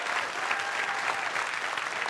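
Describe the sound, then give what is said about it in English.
A church audience claps its hands in applause, a fairly soft but steady, dense patter of many hands that runs evenly throughout without talk over it. “Come on, you give them a better hand clap in that church.”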